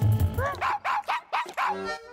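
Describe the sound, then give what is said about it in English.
A chorus of dogs barking as a musical act in a talent competition, with a quick run of high, yelping barks that rise and fall in pitch, moderately loud and alone. “a barking dog chorus”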